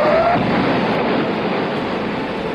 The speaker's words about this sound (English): The probe was put on a newly designed rocket and was launched on a Sunday. Five, four, three, two, one, zero.